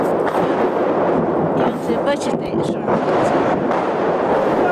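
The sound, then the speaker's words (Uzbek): Explosions sound in the streets of Bakhmut on a Saturday during a declared Christmas ceasefire: a dense, rumbling roar of blasts, with a few sharper bursts partway through. “shanba kuni Bakhmut ko'chalarida portlash ovozlari eshitildi”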